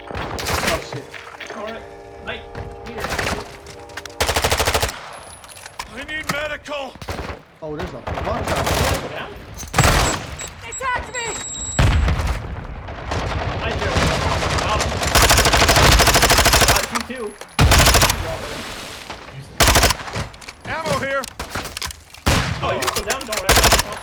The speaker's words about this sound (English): Me? Nah, this is a sniper. Alright. It's just so powerful. If I shoot them in the toe,